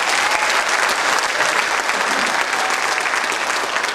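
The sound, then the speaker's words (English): Applause from a church audience at a worship service: a loud, dense, steady patter of many hands clapping, sustained evenly from start to finish. “If you happen to see Rick this morning singing the bass part, give him a hand today.”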